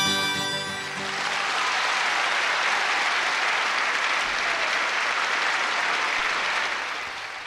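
Audience applause at a 1964 concert: the last notes of a song fade within the first second, then a dense, steady roar of clapping swells and holds for several seconds before easing slightly at the end.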